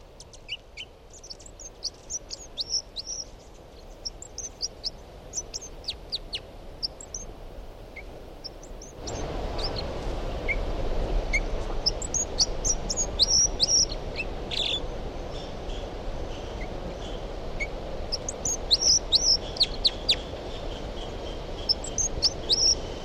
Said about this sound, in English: Recording to 10:06, and this is the song of bird 305.